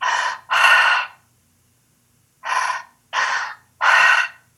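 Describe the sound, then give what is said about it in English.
Forceful mouth breathing in a breathwork pattern of a belly inhale, a chest inhale and an exhale: five loud, breathy rushes, two back to back, a pause, then three more in steady succession, with no talking. “It's an inhale and an exhale through the mouth. It's two breaths in and one out. It's a half a belly breath, half a chest breath, and exhale.”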